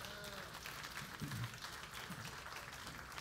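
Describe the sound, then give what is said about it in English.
Applause from a church audience at a Vineyard service: faint, steady, dense clapping that holds at an even level throughout, with no voices standing out. “And could you give yourselves a round of applause?”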